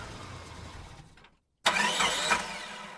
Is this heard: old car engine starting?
yes

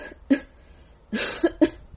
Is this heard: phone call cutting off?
no

